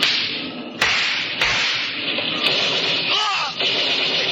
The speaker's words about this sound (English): Hey, they're shooting at us. Tommy guns.